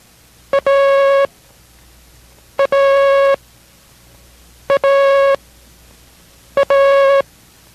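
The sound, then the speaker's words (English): The Morse code letter A sent four times as a clean, steady mid-high tone. Each repetition is a short dit followed at once by a longer dah, with evenly spaced silent gaps between them. “do not memorize the letter A as being dot dash, but rather by the sound dida. Listen.”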